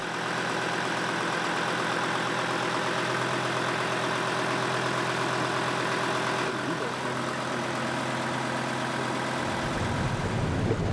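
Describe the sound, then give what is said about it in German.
Boat engine running with a newly installed gearbox, a loud, continuous droning hum with a low throb that holds steady for about eleven seconds, shifting slightly in tone toward the end, with no voices. “Kurz vor dem Abendbrot ist das neue Getriebe eingebaut. Es läuft wie geschmiert.”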